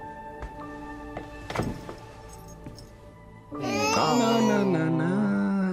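Baby crying: quiet rustling and a dull thump come first, then a loud, high, wavering wail rises and continues to the end.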